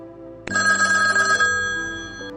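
A telephone rings after a call is dialed: a single bright electronic ring that starts abruptly, holds steady and slowly fades over a low continuous hum.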